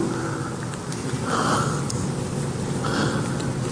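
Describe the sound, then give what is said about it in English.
Sniffing from a person who is crying, a few breathy sniffs rising out of steady, dense background noise. “Stop crying. Go forward.”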